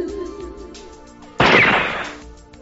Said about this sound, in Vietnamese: Bỗng nhiên một tiếng súng vang lên, cắt đứt sự yên tĩnh.